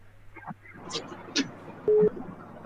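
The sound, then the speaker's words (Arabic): Telephone line tones as a listener's call connects to a live call-in show: two brief, steady low beeps near the end, with faint voices and clicks before them. “الو معانا اتصال”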